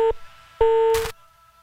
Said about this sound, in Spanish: bueno, se le cayó la llamada.